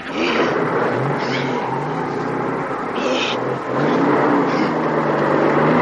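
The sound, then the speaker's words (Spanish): A tracked snowcat engine starting up, a loud mechanical drone with rough revving surges that hold steady and swell again toward the end. “El coche oruga arranca.”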